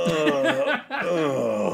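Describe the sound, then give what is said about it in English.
A person imitates a drawn-out, exaggerated groan of derision, like a reaction to a question asked in class, voiced as a sustained, wavering, strained vocal tone. “when someone asks a question in class, just like a groan of derision that's extremely exaggerated. I'm going like,”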